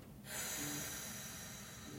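A slow, steady breath is exhaled during a relaxation breathing exercise. It starts with a soft onset, then holds as an even, faint airy hiss for nearly two seconds.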